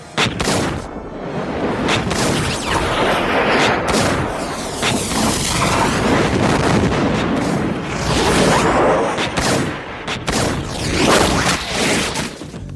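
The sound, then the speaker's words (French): Gunfire crackles through a film action scene, with dozens of shots fired in dense, rapid fusillades and heavy booms mixed in. It is loud and almost continuous, with no voices heard. “l'effet où on voit Neo qui évite au ralenti des balles qui lui sont tirées dessus par dizaines.”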